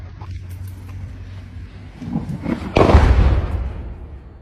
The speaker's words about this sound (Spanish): Como esta joven que, grabando uno de sus trayectos a casa, muestra cómo una bomba explota a apenas unos pocos metros de donde se encuentra.